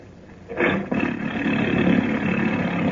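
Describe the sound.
A motorboat engine, the Marianne's, is started as a radio drama effect: a sudden burst of noise catches into a loud, steady, rumbling roar that runs on alone.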